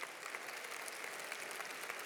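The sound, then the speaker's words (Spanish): Applause from an audience at a religious gathering, honoring the children present; faint, dense and steady, with no voices standing out. “Démosle un aplauso a esos niños que están acá, ¿eh?”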